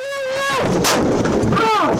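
A police officer fires gunfire during an arrest. A sharp, loud blast cuts through a dense, harsh wash of noise over about two seconds.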